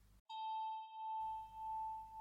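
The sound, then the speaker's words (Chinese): A single bell chime struck during a relaxation session: one clear, pure ding that rings on steadily with a slow, gentle pulsing, alone and fairly soft. “你的大脑听到我的铃声，它就知道要放松。”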